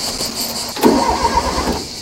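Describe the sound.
A car engine starting, a brief cranking burst that catches into a rough, uneven running rumble over a steady background hiss.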